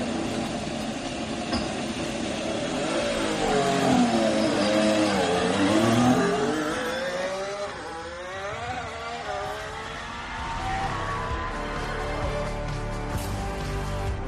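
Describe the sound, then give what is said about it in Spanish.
Ferrari car leaving the pits at the Fiorano test track, driven by Lewis Hamilton: a loud, continuous engine roar that revs hard, its pitch sweeping up and down through repeated gear changes before settling into a steady drone. “que es Lewis Hamilton, estuviera 2 días la semana pasada rodando con el Ferrari en Fiorano. Así salía de boxes.”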